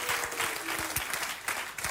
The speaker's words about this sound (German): Hey, wie wär's, wenn wir uns als Church nochmal gegenseitig nochmal einen riesen Applaus geben?